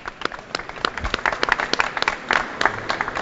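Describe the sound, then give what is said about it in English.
Audience applause: a dense, steady patter of many hands clapping throughout, with no voices over it. “Congrats to all of you. How about a hand for these four?”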